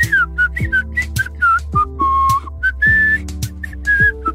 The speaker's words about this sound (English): blew a puff of air through my lips, I could whistle. And I did whistle.